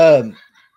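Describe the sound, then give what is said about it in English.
A cat in heat lets out one short, harsh, tonal yowl that dies away within about half a second, followed by near silence. “What the hell is this cat even doing? It's in heat, maybe. Maybe. It's acting crazy.”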